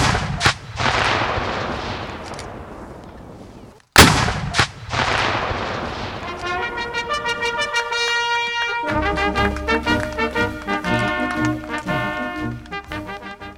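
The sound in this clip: Cannons fire at a commemoration of the 1863 Battle of Chickamauga on the Georgia–Tennessee border, two very loud blasts a few seconds apart, each trailing a long, fading rumble, followed by a long stretch of dense, rapid pulsing.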